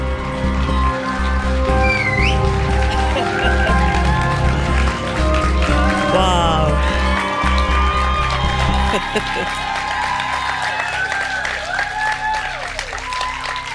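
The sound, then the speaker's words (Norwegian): Cheering and applause from a packed audience at Parkteatret in Oslo, loud and continuous for the whole stretch, with crowd noise rising and holding at a steady level. “Du skal nå få høre Lilly i aksjon foran et publikum på Parkteatret i Oslo. Det er stappfullt med folk, røyk og blålig lys på scenen.”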